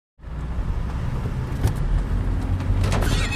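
Wheel rims of a car, nearly new, scraping as a few brief harsh grinding bursts over loud, steady engine and road rumble, with a higher rasping scrape near the end.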